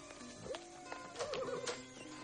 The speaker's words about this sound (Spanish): mira por la ventana y ve pasar a un hombre a caballo